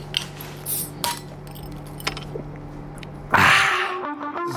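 A beer bottle is opened at a sales counter. A sudden bright burst is followed by a few ringing glassy clinks that fade out. Fainter clinks and handling sounds come before it.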